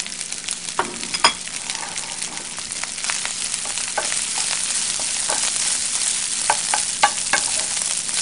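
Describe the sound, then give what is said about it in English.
Rice fries in oil in a hot pan for fried rice, giving a steady, moderate sizzle broken by scattered sharp crackles and stirring scrapes throughout, with no voices. “Now I'm going to add my rice.”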